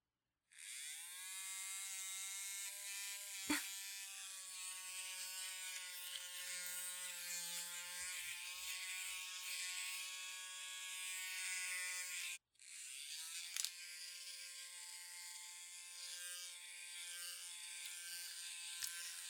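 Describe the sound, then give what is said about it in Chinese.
Electric shaver switched on and shaving hair, a steady, loud whirring buzz that starts abruptly, cuts out briefly midway and then resumes. No talking is heard. “我要帮你把鸡巴毛给剃掉，我要启动开关了。”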